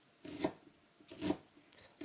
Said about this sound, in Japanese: メガネを外してみじんにしてみるよ。